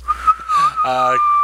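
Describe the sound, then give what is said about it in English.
A person whistles one steady, high tone that holds through the whole clip, with a short voiced sound partway through. “I can whistle, not very well. Oh, okay. One tone.”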